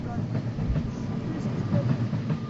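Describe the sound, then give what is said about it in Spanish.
A train passes on a railway line near a village, producing a steady, broad rumble with faint rattling from the tracks that holds at an even level throughout. “En la aldea de Mañecida hay que estar en silencio para escuchar el paso del tren”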